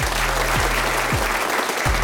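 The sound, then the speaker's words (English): Audience applause: a dense, steady wash of clapping that fills the whole clip at an even loudness, with a few soft low thumps recurring underneath and no voices. “Give a round of applause to Simon.”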